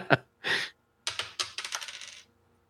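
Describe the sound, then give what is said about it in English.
Foley dice roll: a sharp click and a short rattle, then a quick run of bouncing clicks that come faster and fade as the dice settle into silence. “We're going to do a couple rolls just because our Foley artist has the sound ready to go.”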